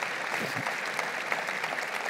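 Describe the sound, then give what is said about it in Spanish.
Applause for the Lord during a Christian sermon: a dense, steady patter of many hands clapping that holds an even level for about two seconds, with no voices over it. “Vamos, dale un aplauso al Señor.”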